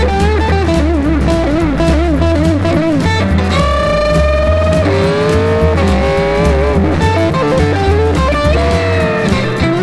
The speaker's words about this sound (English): You hear my tires squealing when I'm peeling through the gears.